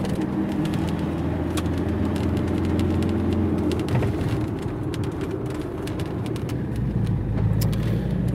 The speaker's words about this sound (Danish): Her hvor vi stille og roligt fræser ud af skolebakken i Aarhus.